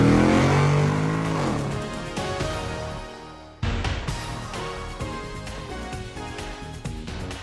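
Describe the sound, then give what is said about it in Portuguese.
Car engine revving and accelerating as it pulls away in first gear. The sound is loud and continuous, dips briefly near the middle, then jumps back with a sudden louder surge. “engata a primeira e acelera!”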